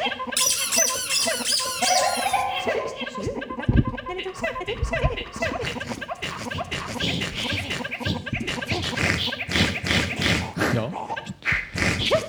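Squeaking toy crocodile with sharp teeth, played in a concert duet: many shrill, rubbery squeaks in quick succession amid scratching, clattering noise.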